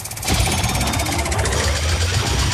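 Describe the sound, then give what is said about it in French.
A prize wheel spins with a rapid, steady stream of ratcheting clicks. The clatter starts abruptly and stays loud and even throughout. “je la lance alors la roue. oui, on y va. C'est bon là Oui, oui, c'est bon, elle tourne.”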